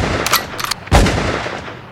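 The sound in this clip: Gunshots in a hip hop track: a few sharp, loud cracking bursts close together, the last and heaviest blast followed by a rumbling tail.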